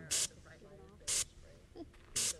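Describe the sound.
Bear spray fires from a can at a fake bear painted on plywood in three short, loud, evenly spaced hissing bursts, with faint voices between them.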